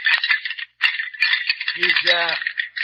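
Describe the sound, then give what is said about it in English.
Rattling bones give a rapid, dry clacking rattle in loud bursts separated by short gaps, and a brief voice-like tone sounds in the middle. “He's rattling bones.”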